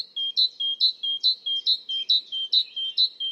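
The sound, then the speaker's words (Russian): A great tit sings a clear, high two-note phrase, alternating higher and lower notes, repeated many times in a steady, bright rhythm with no other sounds. “то знайте, что это Большая Синица, и поздравьте себя с первым выученным голосом.”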